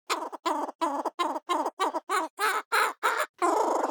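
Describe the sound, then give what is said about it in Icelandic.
A laughing kookaburra's call: a long run of loud, rhythmic cackling bursts, evenly spaced and harsh, building into a longer continuous burst at the end, with no other sounds. “sagði hinn hlæjandi kokkabúrafugl, en svona hljómar hann”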